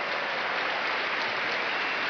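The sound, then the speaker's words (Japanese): Applause fills a sumo hall during the bow-twirling ceremony as a wrestler spins the bow rapidly: steady, dense clapping from the crowd that stays even and loud throughout, with no voices standing out. “かなり速い回転に館内からは拍手。”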